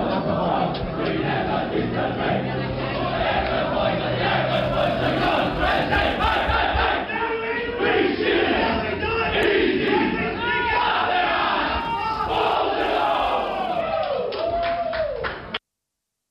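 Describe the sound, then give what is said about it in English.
Loud crowd cheering from Yarra Glen supporters at the 2018 Yarra Valley Pride Cup football match, a sustained roar of shouting and whooping voices that carries on without pause before stopping abruptly at the end. “That was Yarra Glen cheering at the end”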